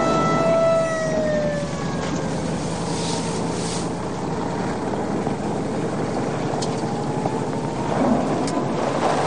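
Police car sirens wail past on a nearby road, their pitch sliding downward early on, then fading into a steady, broad rushing rumble that continues throughout.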